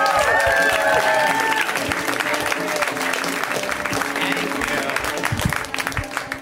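Audience applause and cheering welcome a comedian to the stage: loud, dense clapping with a few whistles early on, continuing steadily and easing slightly toward the end.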